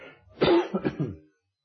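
A single short, throaty cough breaks into a few rough bursts, like someone clearing the throat, then stops into silence.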